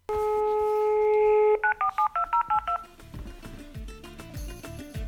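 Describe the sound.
A telephone number is dialed with touch tones: a steady dial tone is followed by a quick run of about seven short, evenly spaced beeps, then quieter tones afterward.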